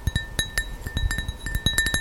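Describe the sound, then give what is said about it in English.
Fingers drumming on glass make many sharp, irregular clinking taps, loud and alone, each with a brief bright ring. “What is this? It's just fingers drumming against the glass.”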